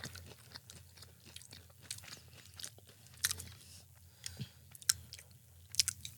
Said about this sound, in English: And these are frozen. 3, 2, 1. Yeah, they have an entire jalapeno inside.